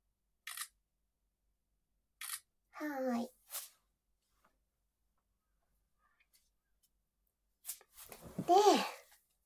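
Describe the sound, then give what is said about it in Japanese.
A few crisp camera shutter clicks as photos are taken. Each is brief and separated by silence, with short bits of speech between them. “ねえ、写真を撮るんだった。写真撮りまーす。”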